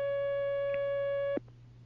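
A steady telephone line tone sounds as a call comes in, a bright humming pitch with buzzy overtones held for over a second, then cut off by a sharp click, leaving a low hum underneath.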